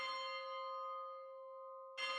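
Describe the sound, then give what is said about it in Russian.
A town hall clock bell strikes the hour: one loud, clanging strike rings on with a long sustained hum, then a fresh strike lands near the end. “Часы на здании ратуши бьют 10 раз.”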